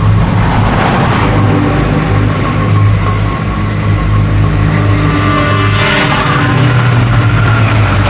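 A car speeding down a highway: a steady, loud engine roar over broad road-noise hiss and a low hum. The sound swells twice as the car surges along, and no voices are heard.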